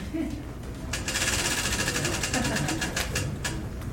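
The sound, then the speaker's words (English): A prize wheel spins at a live show, giving a rapid run of ratcheting clicks that grows sparser toward the end, over a steady noisy background. “You want to give us a spin on the wheel there? Spin it in either direction.”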